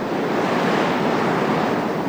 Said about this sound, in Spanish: 30 kilómetros al noroeste de Carahue, el Océano Pacífico azota con fuerza el litoral. El sustrato intermareal rocoso que soporta el embate de las olas es un ambiente propicio para el desarrollo de gran cantidad de algas comestibles.